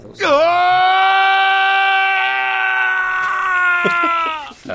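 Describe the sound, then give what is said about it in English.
A video game character lets out a drawn-out scream: one loud, sustained voiced cry of about four seconds. It dips briefly in pitch at the onset, holds steady, then breaks into a few quick faltering tails at the end. “Does Toltec scream? Toltec does scream. Have you queued that up?”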